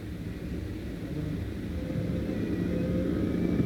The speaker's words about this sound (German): Die Automobile aber fahren achtlos vorbei. Sie hören ihn nicht. Sie sitzen im Drehgeräusch ihrer Wagen.